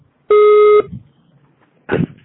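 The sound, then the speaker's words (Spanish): A voicemail system's recording beep: one steady electronic tone lasting about half a second, clear and loud, followed by near silence. “Para eliminar ese mensaje, por favor, deja tu mensaje después del tono.”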